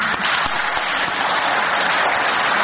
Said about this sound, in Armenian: Հայաստան Դաշինքի երկու բացակա պատգամավորների անունները հնչելիս խմբակցության պատգամավորները ոտքի կանգնեցին ու ծափահարեցին։